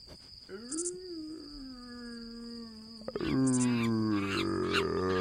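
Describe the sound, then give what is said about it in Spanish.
A human voice imitates a wolf howl with a long, sustained, wavering moan. Partway through, it swells into a louder, fuller howl that holds to the end. “Hacemos el lobo.”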